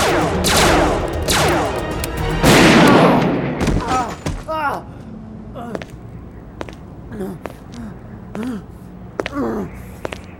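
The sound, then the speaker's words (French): Laser pistol shots ring out as sci-fi zaps, starting with a few heavy, bright blasts and followed by many shorter, sharp zaps at an uneven pace. “Un seul coup de ton pistolet laser et je saurai où tu te caches. Ah, et plusieurs coups !”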